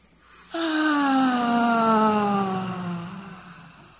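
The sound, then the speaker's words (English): A group breathes out audibly together in one long, voiced, sighing exhale. It begins suddenly, glides gently downward in pitch and fades over about three seconds. “We'll breathe in and then breathe out audibly. Breathe in.”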